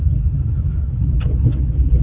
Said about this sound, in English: I just took off here before I went to church, just do a little drive about instead of a walkabout, of course. Just kind of putter around town